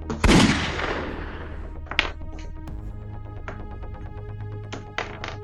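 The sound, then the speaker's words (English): A single loud revolver shot bursts out near the start and decays in a long, rumbling tail, followed by a steady low tonal hum with a few sharp clicks and taps. “You aim your revolver, pull the trigger.”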